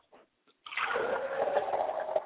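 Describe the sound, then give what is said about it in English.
Liquid is poured out as a libation during a ritual: after a couple of faint brief noises, a continuous splashing, sloshing pour begins and runs steadily to the end at moderate level. “Pouring libations to the west, I look towards the west, and we all say, Ashe. Pouring libations to the north, let us all say, Ashe.”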